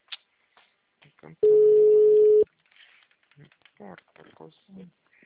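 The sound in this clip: A telephone call rings out unanswered: one steady, even ringback tone lasting about a second, surrounded by brief faint murmurs and small clicks.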